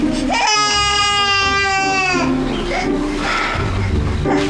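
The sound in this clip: A baby crying in one long, loud, high wail that breaks off abruptly, followed by softer fussing and murmured sounds.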